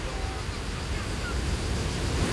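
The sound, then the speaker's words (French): Sea waves wash onto Sablettes beach at the port of Algiers: a steady, dense roar of surf with a wind-like hiss. It stays evenly loud throughout, with no distinct breaks between waves. “Et quand ils ont le temps, la plage des Sablettes. Plongée dans l'eau salée du port algérois.”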